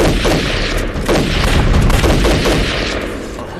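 Heavy gunfire in a battle, a dense, loud and continuous rattle of shots and booms with no pause, and no voices.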